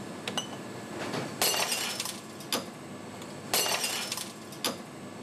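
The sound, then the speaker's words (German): Sharp glassy impacts ring out as a beer bottle is struck repeatedly in a brewery strength test, turned 45 degrees between blows under increasing weight. There are several loud, bright clinking strikes at uneven intervals, each with a short ringing tail, and no voices. “Wir schlagen fünfmal und jedes Mal müssen wir die Flasche um 45 Grad drehen. Gleichzeitig wird das Gewicht mehrfach erhöht.”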